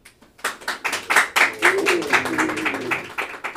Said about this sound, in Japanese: ちなみに今日初めて冷蔵庫を見る人、拍手